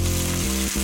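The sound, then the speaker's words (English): Steak searing in its juices on a Weber Searwood pellet grill gives a brief, loud, steady sizzle with a hissing crackle throughout, heard alone. “That's the sound of steak searing in its juices on your new pellet grill.”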